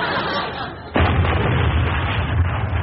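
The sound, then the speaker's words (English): Naval guns firing from destroyers at sea: a sudden heavy blast cuts in about a second in, then a dense, continuous rumbling roar carries on loudly to the end. “No, it's those destroyers out to sea, sir. They're pooping off at old Thunderguts.”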